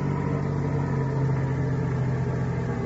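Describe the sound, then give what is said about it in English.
A car engine idles as a vehicle is stopped beside a shack, giving a steady, even low rumble and hum that holds level throughout, with no voices. “Turn off that motor.”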